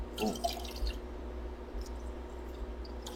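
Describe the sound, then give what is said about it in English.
Running water makes a steady, continuous wash of noise, with a few brief drip-like sounds near the start. “What's that? That's the sound of running water.”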